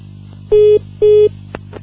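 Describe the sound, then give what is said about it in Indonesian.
Two steady mid-pitched line tones sound after a dropped phone call. Each lasts about a quarter second with a short gap between them. A low hum runs underneath, and two faint clicks follow the tones. “Ya sayang sekali teleponnya terputus ya Mas Aji, bisa dicoba kembali mungkin?”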